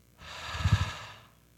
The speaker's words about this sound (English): just everybody take a deep breath in. Now a deep breath out.